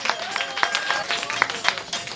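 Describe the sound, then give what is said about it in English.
Crowd applause at a staged mock coronation rally for Michael Bloomberg. Scattered claps blend with cheering voices and crowd noise in a short, busy burst. “Round of applause for King Bloomberg.”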